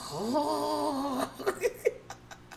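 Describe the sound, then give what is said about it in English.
A voice imitates a loud, exaggerated cartoon-style snore: a drawn-out nasal tone that rises in pitch, then several short snorting pulses that trail off. “it was the biggest Bugs Bunny snore, and it was like, oh.”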